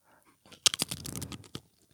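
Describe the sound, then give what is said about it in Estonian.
Crisp crunching of someone biting into potato chips: a quick cluster of sharp, bright crunches followed by softer chewing, fairly faint and set against near silence. “Võtaks amps krõpsu”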